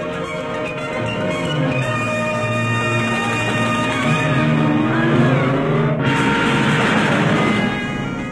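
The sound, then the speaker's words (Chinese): A car engine droning as the vehicle drives off, with layered tones that rise and waver over about eight seconds and a sharp burst of noise near the end. No one speaks. “快开车，你认识路。”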